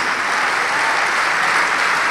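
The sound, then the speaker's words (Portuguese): A church audience applauding during a worship service, a dense, continuous and loud patter of many hands with no pauses. “Vamos aplaudir mais.”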